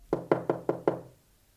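Five knocks on a door along a corridor, sharp, evenly spaced raps of similar loudness, each with a short, hollow ring and a brief decay after the last.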